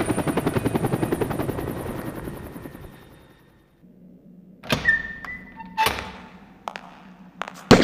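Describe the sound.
Helicopter landing at a landing zone: a loud, rapid rotor chop that fades away over a few seconds, followed by a few heavy thuds and clanks.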